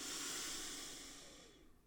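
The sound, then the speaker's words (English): A deep breath drawn in through the nose during a relaxation exercise, a soft airy hiss that starts full and gradually fades to near silence. “So we're going to breathe in.”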